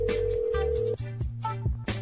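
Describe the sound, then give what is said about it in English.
Telephone ringback from a call to a Sprint mobile number that goes unanswered: a steady electronic tone holds for about a second, then gives way to short, stepped electronic tones, with no voices. “So I'm just calling this Target girl over and over and over.”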